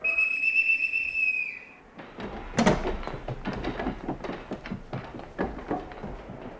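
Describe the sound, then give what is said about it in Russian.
A boatswain's pipe on a sailing ship pipes all hands on deck: a steady, high, shrill whistle for under two seconds that dips at the end, then a run of knocks and thumps. “Свистать всех наверх!”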